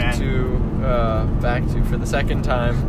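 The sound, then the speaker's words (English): Steady low road rumble inside a car driving from Belle Vernon, Pennsylvania, on a long trip home. The drone runs evenly throughout, under people talking. “We're in the car driving from... Belle Vernon, Pennsylvania,”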